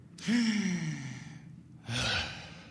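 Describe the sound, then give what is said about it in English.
Deep breaths taken on request during a medical examination: two voiced, sighing exhales. The first is long and drawn out; the second is shorter and follows after a brief pause, with no other sound. “Take a deep breath for me.”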